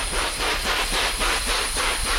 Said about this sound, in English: A brisk, rhythmic thrumming carries through the forest in Borneo. What sounds like an approaching helicopter are actually the wing beats of a remarkable bird called the rhinoceros hornbill.